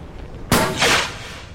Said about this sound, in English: Propping 1 foot on a ledge, he loads a flare gun and aims it skyward.